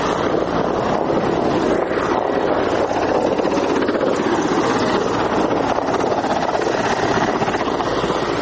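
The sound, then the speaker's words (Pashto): Three Afghan forces' Mi-15 military helicopters circle overhead, producing a loud, unbroken drone of rotor and engine noise mixed with gusty wind buffeting, steady throughout with no talking. “زموږ پر سر د افغان ځواکونو درې هغه جنګي می 15 هلیکوپټر هم ګرځي”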